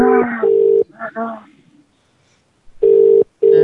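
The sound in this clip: Ringback tone of an outgoing phone call: steady, mid-pitched double rings in two pairs, separated by a pause with brief talk between them.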